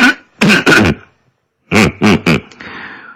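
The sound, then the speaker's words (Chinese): A man, a factory director, clears his throat in two clusters of short, harsh voiced bursts, roughly three in each, separated by a brief silence and followed by a faint hiss. “厂长乌里吉咳了咳嗓子说”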